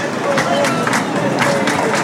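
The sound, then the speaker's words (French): Spectators at a bullfight begin to protest, a dense, loud crowd murmur of many voices with some louder outbursts rising and falling throughout. “Ça commence à manifester dans le public.”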